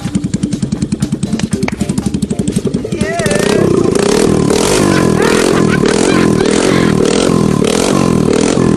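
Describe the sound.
Motorbike engine with newly rewired electrics: a steady low putter for about three seconds, then a much louder, rough revving roar that holds to the end.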